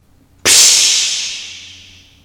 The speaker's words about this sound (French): L'ingénieur prend un verre d'eau et le verse sur la braise.